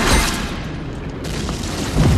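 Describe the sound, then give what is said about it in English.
Deep booming rumble as a store wall implodes during wartime bombardment, with heavy low crashes at the start and again near the end and a sustained roaring rumble of debris between them. “Petrified, Ludmilla watches as a wall of the store implodes.”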